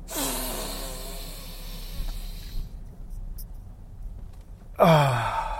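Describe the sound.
A deep breath is drawn in, held through a quieter stretch, then let out as a sudden, loud, sighing exhale with some voice in it.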